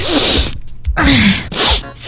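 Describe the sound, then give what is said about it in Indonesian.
Three loud, breathy sneezes burst out in quick succession, each a sharp voiced explosion of air with short gaps between them. “bersinnya yang benar dong. Ntar percikan bersin kamu bisa menular.”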